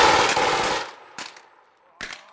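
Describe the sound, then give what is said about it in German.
Blank training ammunition fires during a German army training exercise: a rapid, loud burst of shots for about a second, followed by two separate sharp single reports. “Und auch wenn eben geschossen wird, dann ist es nur Übungsmunition. Das heißt, es knallt zwar ordentlich,”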